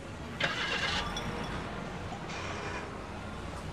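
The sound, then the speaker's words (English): Car driving away, a quiet low engine rumble that holds steady, with a couple of brief hissing bursts rising over it near the start and middle. “And as our jaded Judas of Justice drives away from me in an infectious villain's automobile”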